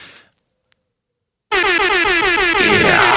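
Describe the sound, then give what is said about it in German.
DJ-style air horn sound effect, as played in clubs, bursts in loud and brash after a quiet moment with a few faint ticks, holding a sustained blaring blast with a rapid stuttering texture. “ich habe diesen Sound Airhorn, ne? Im Club, das haben ja DJs früher in den Clubs auch ab und zu gemacht”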